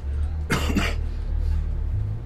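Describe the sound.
A short, two-part cough from a person with a slight cough blamed on the heat. It is fairly loud and abrupt against a low, steady background hum.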